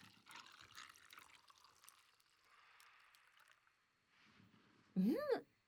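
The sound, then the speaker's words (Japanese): Water poured into a vessel at home: a brief, loud pouring burst near the end whose resonant tone climbs quickly in pitch as it fills, following a stretch of quieter speech. “よし、では水を注いでと。”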